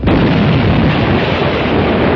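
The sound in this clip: An explosion like bombing: a loud, sustained roar of dense rumbling noise that holds steady for about two seconds, with no separate blasts standing out.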